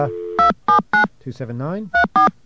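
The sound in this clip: DTMF keypad tones dial a seven-digit number on a customer-owned payphone line, with five crisp, evenly loud beeps in two groups. A steady dial tone precedes them, and a voice speaks briefly between the groups.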